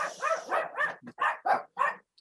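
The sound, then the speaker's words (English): Dogs barking in a quick series of sharp, mid-pitched barks, loud and clear with short gaps between them and no talking over them. “I have dogs. It's okay.”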